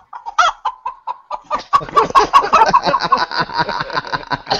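Chicken clucking sound effect: a string of sharp, separate clucks that speeds up into a dense, loud run of squawking clucks.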